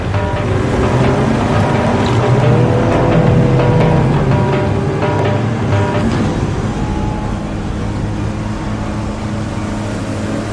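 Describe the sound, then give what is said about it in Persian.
Motorboat engines drone as several boats loaded with boxes set off on the water, a loud, steady, rumbling hum that runs unbroken through the whole stretch with no talk. “بقیه قایقام راه میفتن.”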